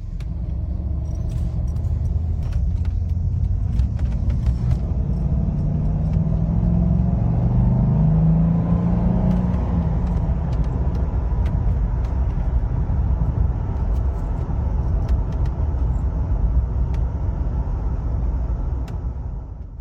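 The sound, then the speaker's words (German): Steady low engine and road rumble inside a moving Mercedes 560 W126 sedan with a four-speed automatic gearbox, continuous and even throughout with faint ticks above. “Und wie es sich anhört, im 560er unterwegs zu sein, das hören wir jetzt.”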